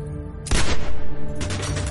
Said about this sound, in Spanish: El oficial con bigote camina hacia el cuerpo de la mujer. Le dispara con una pistola.